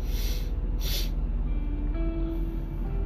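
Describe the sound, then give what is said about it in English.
Two short, sharp sniffles from a person who says they are not sick, heard close together over a steady background hum. “Don't mind me sniffling.”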